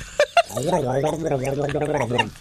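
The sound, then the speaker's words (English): A man gargling tea while speaking: his voice comes out as a bubbly, wobbling gurgle throughout, after a couple of sharp clicks at the start. “why doesn't he just gargle some drink whilst he's speaking?”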